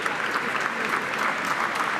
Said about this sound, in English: Applauded by members of his team who come from inside number 10 and number 11 onto the steps